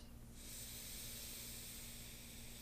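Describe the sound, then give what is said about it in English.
A long, full inhale through the nose during a guided breathing meditation: a soft, steady airy hiss that holds evenly throughout and stays faint. “Another full inhale in through your nose.”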